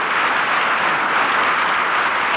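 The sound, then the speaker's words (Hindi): An audience applauds at a comedy and mimicry stage show as the performer is welcomed on: dense, loud, continuous clapping that stays steady throughout. “आपकी जोरदार तालियों के साथ आ रहे हैं comedy king Johnny liver.”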